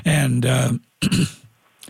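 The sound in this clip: Throat clearing from a scratchy, irritated throat: a long rough voiced rasp, a short pause, then a second harsher burst that trails off.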